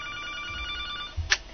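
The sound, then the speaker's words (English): A telephone rings with an incoming call, a fairly faint, steady electronic ring of high tones that ends with a brief, brighter chirp. “Wait, could this be a... We have a phone call. Well, let's see who this is.”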